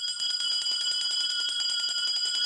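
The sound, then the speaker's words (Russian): A hand bell lifted and rung in a canteen, giving a bright, high, sustained ringing with a rapid shimmering pulse that holds steady throughout, with no other sounds. “Мужчина с бородкой смотрит на часы, поднимает колокольчик.”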